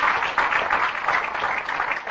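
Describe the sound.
Steady hand clapping from a church audience during a service, a dense, even patter that holds at a moderate level for the whole two seconds with no clear gaps or voices above it.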